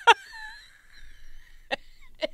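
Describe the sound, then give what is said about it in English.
Wheezing: a thin, high whistling tone is drawn out for about a second, framed by three short, harsh breathy bursts, with quiet stretches in between. “That's wheezing.”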